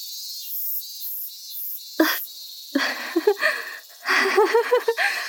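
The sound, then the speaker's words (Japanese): Summer cicadas chirp in a high, rapid pulsing drone at the start, then give way to a jumble of other brief sounds. “セミの声？夏？”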